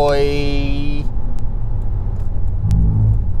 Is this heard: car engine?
yes

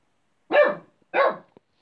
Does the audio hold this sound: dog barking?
yes

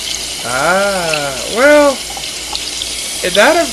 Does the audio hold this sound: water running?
yes

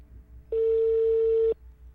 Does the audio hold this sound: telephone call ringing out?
yes

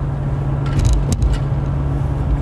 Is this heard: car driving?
yes

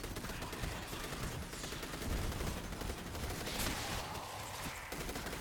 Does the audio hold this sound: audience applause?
no

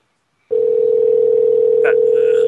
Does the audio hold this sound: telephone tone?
yes

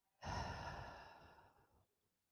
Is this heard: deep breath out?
yes

